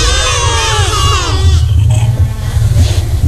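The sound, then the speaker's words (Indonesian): A goat bleats in one long, quavering, wavering cry that fades after about a second and a half, leaving a steady low rumble of background noise. “Suara kambing.”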